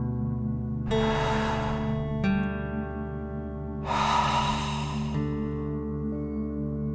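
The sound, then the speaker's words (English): A slow, deep breath: a long airy inhale, a pause, then a long exhale out through the mouth, both soft and breathy over a sustained, humming musical drone. “Ready? Deep breath in and out.”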